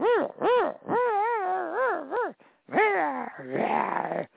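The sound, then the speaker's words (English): Dog howling and whining in several long, wavering cries that swoop up and down in pitch, loud and continuous with brief breaks between them. “What is that? That's my dog telling you I didn't do it.”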